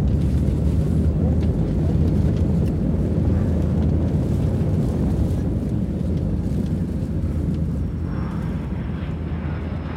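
Airplane cabin roar during takeoff: a loud, steady, low rumble of engine and airflow noise that holds without a break for the whole stretch.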